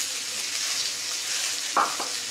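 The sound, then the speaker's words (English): Spring onions and carrots sizzle in hot oil with chili for a vegetable stir-fry, a continuous loud frying hiss with a brief louder crackle near the end. “So immediately, just that chili sees the oil, and immediately we put the vegetables inside. Spring onions, carrots,”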